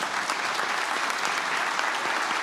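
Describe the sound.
Audience applause welcoming guests asked to stand at a church gathering, a dense, even wash of clapping that runs steadily throughout without a break.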